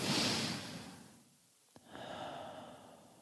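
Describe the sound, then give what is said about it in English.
Slow exhale during a guided breathing exercise, a faint, airy whoosh of breath that fades out, followed by a small click and another soft breath. “And then we pause and exhale.”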